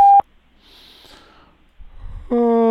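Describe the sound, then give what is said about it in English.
A voicemail tone beep: a short electronic tone at the start, then a quiet stretch with faint breathy noises, and finally a loud, steady, sustained beep that runs to the end. “Your call has been forwarded to our automated voicemail system. Please leave a message after the tone.”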